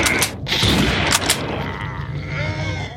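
Hunting rifle gunfire in a video game: a few sharp, loud shots crack within the first second and a half, each a brief burst, followed by a fading tail with no further shots.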